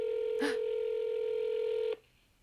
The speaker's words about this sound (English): Should I put this on speakerphone and just see what happens? Yeah, just do it. All right, so I'm gonna press call speaker.